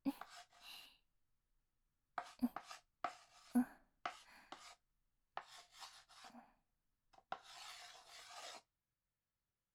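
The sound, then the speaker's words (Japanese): Chalk writing on a blackboard during a class: raspy, scratchy strokes arrive in several separate bursts with short pauses between them, keeping a fairly steady working rhythm. “先生の低い声と一定のリズムで響くチョークの筆記音、誰も授業中に眠ってしまう要因の一つでしたね。”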